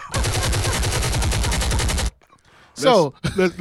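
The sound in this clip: A gunfire sound effect: a rapid, steady burst of automatic shots lasting about two seconds that stops abruptly, followed by brief speech.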